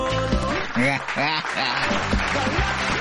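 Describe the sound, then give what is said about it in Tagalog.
Applause from an audience runs steadily under voices speaking over it. “Kana, kaya palakpakan.”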